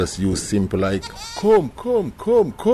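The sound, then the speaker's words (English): Goats bleat at a landscaping business that rents out goats for grazing: a few wavering, rising-and-falling bleats, mixed with a person calling the animals in a sing-song voice. “at City Grazing, a landscaping business that rents out goats, it is. I'm very familiar with animals. I specialize in goats.”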